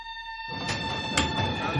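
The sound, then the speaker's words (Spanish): A metro train runs through a tunnel. A steady electric whine is joined after about half a second by a broad, constant rumble of wheels that continues at an even level. “Más tarde va montado en el metro, las puertas se abren y un grupo de jóvenes entra.”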